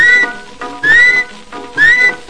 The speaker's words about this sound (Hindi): धीरे धीरे सीटी बजाऊंगा, मेरी सीटी की ये पहचान है